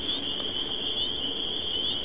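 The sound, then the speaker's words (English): Crickets chirp in a continuous, steady high-pitched trill that holds at an even level throughout, with no other sounds. “hanging out with some crickets”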